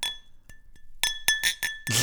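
Wine glasses clink together in a toast. Two light taps come first, then a quick cluster of bright clinks that leave a sustained high ringing tone.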